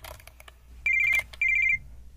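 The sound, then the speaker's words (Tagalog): An incoming call sets off a mobile phone's electronic ringtone, two short bright bursts of warbling high tone separated by a brief gap and preceded by a few faint clicks. “Si Nathan tumatawag. Masagot nga.”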